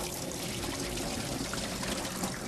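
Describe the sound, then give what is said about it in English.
Cold water pours and trickles as bean sprouts are rinsed clean, a steady continuous splashing flow with no voices. “we're going to need some bean sprouts. Okay, make sure you use cold water, and you want to wash it nice and clean, and then”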